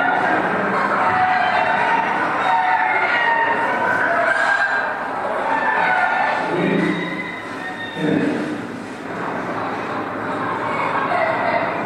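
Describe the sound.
Roosters kept in many rooftop cages crow and cluck, several overlapping calls rising out of a dense, continuous noisy background.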